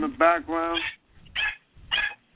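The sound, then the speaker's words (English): A dog barks in the background, two short, separate barks following a longer stretch of voiced sound. “In the background. What's that? Is that what it is? I don't know. It sounds like somebody's dog.”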